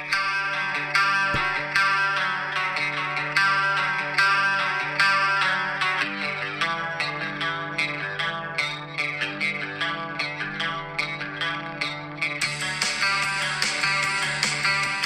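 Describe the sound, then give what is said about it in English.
An 80s-style electric guitar riff, heavily processed with chorus, echo and distortion effects, repeats a bright pattern at fairly even loudness with no voices; sharper high tones come in near the end. “Like, that guitar riff. I love that.”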